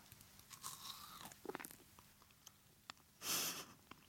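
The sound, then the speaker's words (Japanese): A single crisp bite into a smooth-textured food gives a short, crunchy burst that stands out clearly. Before it, the quiet holds only a few faint clicks. “ちょっとこれ音でこのシャリッと感と滑らか感を伝えたいんですけど、一口かじってみます。”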